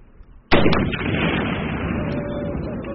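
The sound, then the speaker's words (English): A Swedish Carl Gustaf shoulder-fired recoilless weapon fires once during military training: a sudden, sharp, loud blast. It is followed by a long, heavy rumbling roar that stays strong and fades only slowly over several seconds. “a Swedish weapon called the Carl Gustaf. It looks like a bazooka. It can be carried by a single soldier.”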